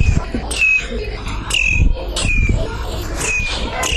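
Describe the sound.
Birds singing, with short bright whistled chirps recurring about once a second over a steady low rumble, with no voices.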